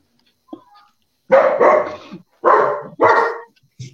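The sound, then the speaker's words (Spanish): A person imitates a dog barking with four loud, harsh bark-like bursts in two pairs. Faint short vocal sounds come just before and after. “No, no ladre”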